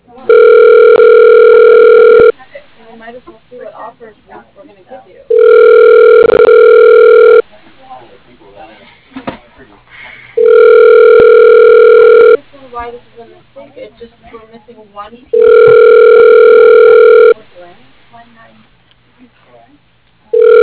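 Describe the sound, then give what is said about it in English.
A telephone ringback tone repeats four times as long, steady, even tones at regular intervals, with talk in the gaps between them. “Okay, dialing.”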